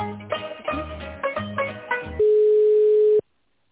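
A telephone call being put through, ending in a single loud, steady ringing tone that holds for about a second and then cuts off abruptly.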